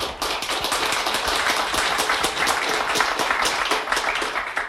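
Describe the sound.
An audience claps to welcome a guest at a drug-policy event. Crisp, distinct claps blend into a brisk, even patter of moderate loudness that carries on steadily for several seconds.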